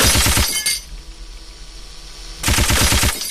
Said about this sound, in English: Use the shotgun. Your base was repaired completely. Machine gun.